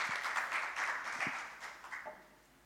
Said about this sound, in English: Let's give a warm welcome.